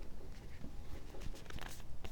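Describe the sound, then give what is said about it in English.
An oracle card is drawn from a deck, giving a continuous papery rustle and sliding friction of cards being handled, with light scratchy patters throughout. “let's pull your Oracle card for March 25th through 31, please, for Gemini”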